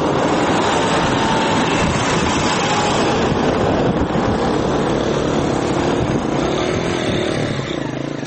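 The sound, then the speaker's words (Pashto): Mixed traffic of army tanks, rickshaws and cars moving near a children's cricket game, heard as a loud, unbroken roar of engines that holds steady throughout. “د کرکټ دې لوبې ته چیرمه د ملي اردو ضربتي ټانګونه او د ملکي کسانو رخشې او موټرونه ګډ تګ راتګ کوي.”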